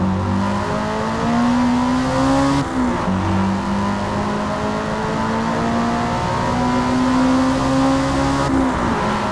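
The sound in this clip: A racing car engine in a motorsport video game, accelerating and braking: a loud, sustained, buzzing roar whose pitch climbs steadily, then drops sharply twice before climbing again.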